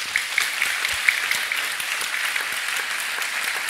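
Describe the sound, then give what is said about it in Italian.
Audience applause welcoming a guest, a political scientist, at a public talk: a continuous, even wash of many hands clapping, steady in level throughout. “vi chiedo di salutare con un applauso è Michael Drissen”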